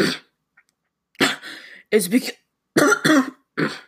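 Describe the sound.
Coughing and throat clearing from someone with a bad cough and a sore throat: a few harsh, voiced bursts of uneven length, separated by short silences.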